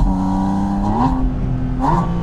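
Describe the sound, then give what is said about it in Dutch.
A Porsche 911 GT3's naturally aspirated 4-litre engine revs with a steady, loud, buzzing drone that briefly climbs in pitch twice, with no voices. “En dan een lekker dikke motor. En dit is het. Woehoe! 4 liter blok. Atmosferisch. Mag achterlijk veel toeren draaien.”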